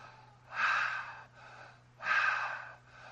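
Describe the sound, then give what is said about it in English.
A voice imitates heavy breathing: two loud, long, breathy inhalations separated by softer, quieter breaths, with no speech. “that's the sound from heaven, as of a heavy, heavy, heavy breathing.”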